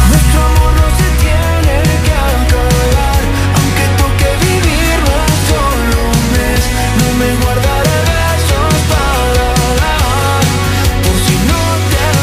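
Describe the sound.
Full-band pop song plays loud and dense, with steady rhythm, sustained harmonic layers and bright upper textures, continuous across the whole passage with no talking over it.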